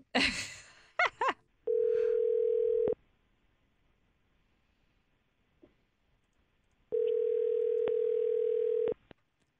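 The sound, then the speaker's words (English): Ringback tone of an outgoing telephone call: two long, steady mid-pitched tones separated by a silent gap, with a brief voice sound at the start. “let's call Bianca right now and see if she'll answer our call”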